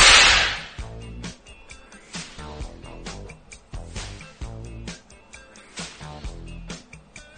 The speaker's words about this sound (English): The best cracks for use on a short whip.